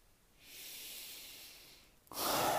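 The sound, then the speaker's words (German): A deep breath drawn in: a long, steady airy hiss lasting well over a second, then a sudden, louder and harsher burst of breath noise at the end. “Ich atme tief ein, trete ein.”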